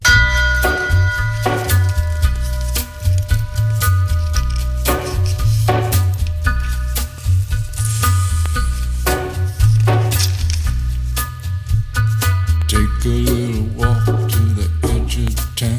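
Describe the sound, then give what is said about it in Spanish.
A radio show theme tune plays alone: music driven by a steady, pulsing bass line with bright, repeated percussive hits and plucked tones on top. “Suena esta sintonía y eso significa que hablamos con Ramón Besa y con Manuel Jabois.”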